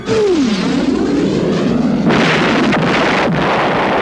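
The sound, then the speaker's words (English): A mortar fires in a barrage: a loud falling whistle opens, then a continuous heavy rumble follows, with a sharper burst partway through. “every time you fire, I'll put a new one in the tube. It's what we call a barrage. A mortar barrage.”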